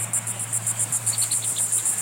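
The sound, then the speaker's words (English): Cicadas sing at a pristine coastal marsh in Virginia, a rapid, steady train of many high buzzing pulses over a low constant hum. “Cicadas sing at a pristine marsh on Virginia's coast”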